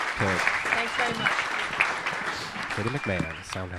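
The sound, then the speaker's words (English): Audience applause, a dense, steady patter of many hands clapping throughout. A man speaks over it. “Everybody give a warm round of applause.”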